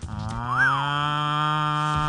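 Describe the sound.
A cow gives one long, loud, sustained moo in a milk advert. It wavers in pitch near the start and then holds steady for about two seconds, with no voices.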